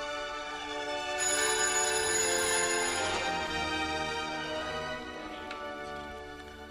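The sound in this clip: A telephone rings with a sustained electronic ringtone of layered steady tones, fairly faint and holding at an even level throughout with no voices present.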